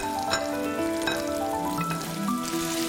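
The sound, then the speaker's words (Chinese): Steady sizzling crackle of blanched pork belly being stir-fried in hot oil in a clay pot, a continuous hiss at moderate loudness for the whole clip. “沙包淋油烧热，经过汆水五花肉入包翻炒”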